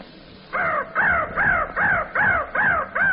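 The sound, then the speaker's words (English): A crow cawing sound effect: a rapid run of seven harsh, evenly spaced caws follows a brief quiet start, and the last caw is cut off at the end. “It could be the Crow, too. Sound effect, Crow.”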